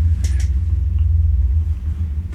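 A low, steady rumble comes from an elevator running after the floor 5 button is pressed. The hum stays even and continuous.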